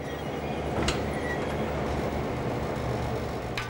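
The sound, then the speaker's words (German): Nohab class 1600 diesel locomotive no. 1604, a Swedish-built museum engine from Luxembourg on a special run, departing a main station: a steady, heavy low rumble of engine and rolling stock, with a couple of brief metallic clanks. “Aufbruch im Hauptbahnhof. Als Museumslok des Staates Luxemburg verrichtet Lok 1604 seit 1998 ihren Dienst bei Sonderfahrten. Lassen wir dem Kraftpaket freien Lauf.”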